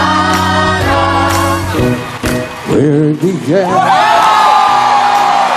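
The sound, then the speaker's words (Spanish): Audience cheering, whooping and shouting as the crowd rises to a standing ovation after a seated guest takes a microphone and sings briefly, the loud cheers and yells building and holding strong to the end. “el público enloqueció, todo el público se puso en mm. pie.”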